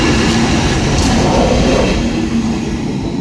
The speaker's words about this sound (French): vous voyez justement maintenant un long train de marchandises avec des voitures qui arrivent. Donc ce sont des trains qui viennent de France et qui vont jusque dans le nord d'Italie. Donc c'est un train qui porte des voitures.